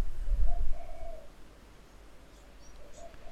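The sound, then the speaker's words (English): Wood pigeon cooing softly under a steady low rumble of wind, with a few faint, mellow coos rising and falling in a slow, repetitive phrase. “that's one of the great sounds, not the bloody wind rushing around, but a wood pigeon, as we used to call them when I was young. Just hear it in the background there.”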